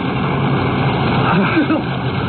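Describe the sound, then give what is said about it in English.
A boat motor runs loudly and steadily as a continuous engine drone, with a voice briefly heard over it. “Cut the motor”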